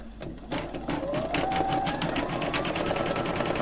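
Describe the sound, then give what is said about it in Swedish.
A computerised sewing machine runs an embroidery pattern, a steady, rapid mechanical clatter and whir that starts after a brief quieter moment and continues evenly throughout, with a faint whining tone. “så nu ska vi kolla att den broderar.”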